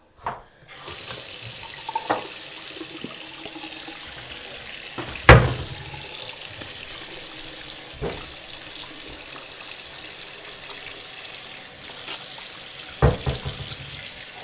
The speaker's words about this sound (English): Okay, let me wash your hands.